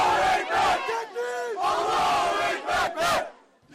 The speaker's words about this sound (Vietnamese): những người ủng hộ ông Erdogan đã đổ ra đường để ăn mừng sau khi Ủy ban bầu cử tối cao Thổ Nhĩ Kỳ công bố kết quả bỏ phiếu sơ bộ.